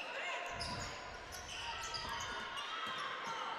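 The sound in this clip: A basketball is dribbled on the court during a high school game between HHS and Spring Garden, including a crossover dribble. A few low bounces sit under steady play-by-play commentary and crowd noise.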